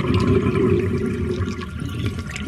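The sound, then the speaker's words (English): Water draining out after the plug is pulled at the end of a hand wash of laundry, a steady rushing gurgle that stays loud throughout. “Now let out the plug.”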